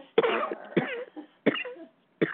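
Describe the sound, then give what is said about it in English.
A person gives four harsh, loud coughs, spaced unevenly with brief quiet gaps between them and no talk. “Sometimes it tickles and coughs as they pull back a bit or come in for a landing.”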